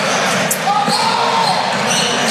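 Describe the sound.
Basketball dribbled on court during a game, with quick repeated thuds under continuous commentary.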